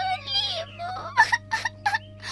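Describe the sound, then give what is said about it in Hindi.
A girl cries, driven to tears after being denied a lemon: a drawn-out whimpering wail gives way to several short, choked sobbing bursts, fairly loud and heard alone. “खेलते खेलते उसे थका दिया, लेकिन लीमू नहीं दिया। लड़की तंग आकर रो पड़ी।”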